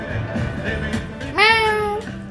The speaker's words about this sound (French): Et ça, c'était un chat.